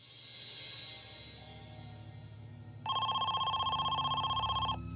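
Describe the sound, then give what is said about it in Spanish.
A telephone rings in one sustained, rapidly trilling electronic burst of about two seconds, loud and steady, rising out of a low background hum, with no voices. “Esperaban que esta fuera la llamada que pudiera asegurar la liberación de Amy.”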